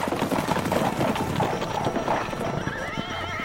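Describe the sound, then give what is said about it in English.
Hooves of horses carrying riders clip-clop in a steady, quick rhythm throughout, and a horse whinnies near the end. “One morning, they were all riding somewhere on horseback.”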